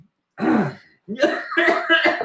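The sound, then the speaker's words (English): A man coughs and chokes, a harsh burst followed after a short pause by a longer, raspy, throaty stretch, loud against silence. “Oh, I'm choking. Oh, excuse me. I was choked up there.”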